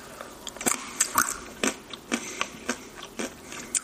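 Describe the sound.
Biting and chewing sea salt and vinegar almonds: many crisp, irregular crunches, each a sharp, bright snap that fades quickly, with no voices.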